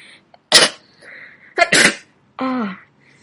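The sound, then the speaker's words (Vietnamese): A woman sneezes several times after a gust of cold wind hits her: a few sharp, explosive sneezes in quick succession, followed by a short voiced, tonal exhale. “một trận gió rét thổi đến, cô liên tục hắt hơi vài cái.”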